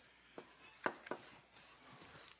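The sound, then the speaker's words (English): An equation is written on the board during a lecture on incremental analysis, giving a few faint taps and scratchy strokes that are sparse and quiet. “I'm just writing that equation up there.”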